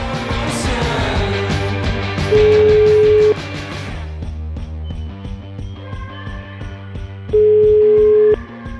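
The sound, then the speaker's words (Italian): Telephone ringing out on an outgoing call: two long, steady beeps of the same pitch about five seconds apart, over a continuous music bed. “Per chiamare la signora Efebal, facciamo squillare questo telefono.”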